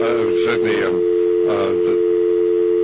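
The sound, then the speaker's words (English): A steady telephone dial tone drones on the line, one continuous mid-pitched hum that holds unbroken from start to finish while people talk over it. “we seem to be having a little competition here, so we're going to be, hopefully they'll get that dial tone off here in just a moment, and we can get the guest on.”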